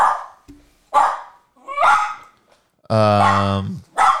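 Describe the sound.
A dog barking: a few sharp, loud barks with short gaps between them, plus one longer, drawn-out tonal bark near the end.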